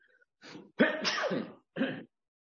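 A sharp, forceful sneeze with shorter breathy bursts just before and after it, heard alone with no talk.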